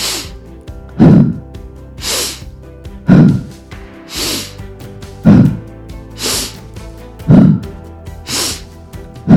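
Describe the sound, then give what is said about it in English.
Deep, forceful breathing during a breathwork exercise: loud, sharp inhales and exhales repeat in a steady rhythm, about one every second, each breath a noisy rush of air. “Okay, so nice deep and forceful inhale.”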